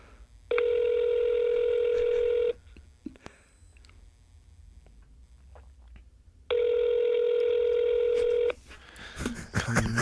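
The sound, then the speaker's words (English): Ringing tones of a phone call on speakerphone: two steady, buzzy rings of about two seconds each, separated by a pause of about four seconds filled with low rustling. Clattering handling noise follows at the end. “I'm calling right now. Okay, let's put this on speaker.”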